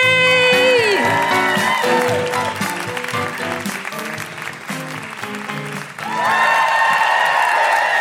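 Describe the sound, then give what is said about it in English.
A live comedy audience at the Edinburgh Fringe claps and whoops in welcome. The applause is loud and sustained, with high whooping tones and a melodic tune woven through it, dipping slightly midway before swelling again. “Please put your hands together and make incredible welcoming woo-hooing noises for the wonderful Celya AP!”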